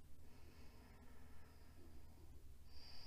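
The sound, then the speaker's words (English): A deep breath in during a guided relaxation meditation, a faint, slow, airy inhale with no voice over it. “Taking a deep breath in as we connect with each other.”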